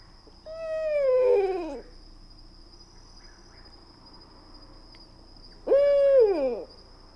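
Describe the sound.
Two owl calls, a female with more vibrato and a male that stops short. Each call is a wavering, falling hoot; the first is long and drawn out, the second shorter. A steady high insect whine runs underneath.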